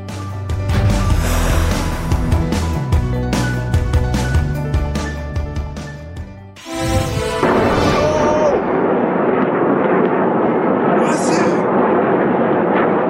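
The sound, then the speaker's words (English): Rocket fire and explosions over Tel Aviv at night: a dense run of sharp, loud blasts and booms for about six seconds, a brief dip, then a sustained heavy roar. “You're looking right now at the skies over Tel Aviv just moments ago, lit up with rocket fire, the rockets from Hamas”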